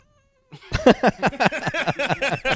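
A cat meows many times in quick succession, a loud run of short, bending cries with brief gaps between them, following a moment of near silence.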